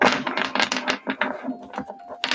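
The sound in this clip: Tarot cards being shuffled by hand: a rapid series of dry, papery riffling and flicking bursts, uneven in rhythm and fairly loud, with no talking.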